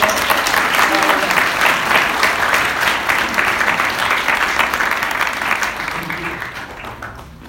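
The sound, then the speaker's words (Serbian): Sustained audience applause at a book presentation in a church crypt: a dense, steady patter of many hands clapping that holds throughout and eases slightly toward the end. “Ajmo jedan aplauz!”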